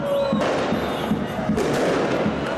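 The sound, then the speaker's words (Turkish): Fireworks crackle and bang nonstop as football fans celebrate a Süper Lig win in the centre of Cizre in Şırnak, Turkey, with dense, loud bursts and thuds overlapping throughout. “taraftarlar Şırnak'ın Cizre ilçe merkezinde havai fişekli kutlama yaptı.”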